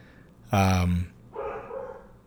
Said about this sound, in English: I don't know if our listeners can hear my dogs barking right now, but it's driving me a little nuts.